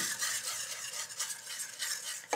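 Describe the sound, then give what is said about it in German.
Beer is stirred into a batter for deep-frying, a steady soft, wet scraping that carries on quietly with no voices. “das geben wir jetzt hier einfach dazu und rühren so lange, bis ein glatter Teig entsteht.”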